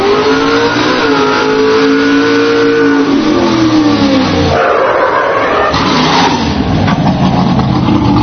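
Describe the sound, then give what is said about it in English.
A big red fire truck's engine revs hard during a firefighters' drill competition event, a loud, continuous roar whose pitch dips and then climbs again. “Big red truck. They got the Empire Hose Company Merrick 3 truck doing the C event for them.”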